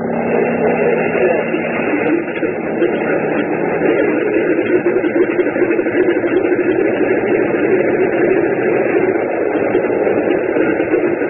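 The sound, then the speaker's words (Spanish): A small aircraft's engine drones loudly and steadily, a continuous buzzing hum that runs unbroken from start to finish. “encendió el motor. El pequeño aparato se estremeció”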